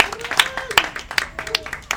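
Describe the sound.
Audience applause at an event introduction: scattered, fairly sparse hand claps that rise and fall in loudness, with a voice or two mixed in.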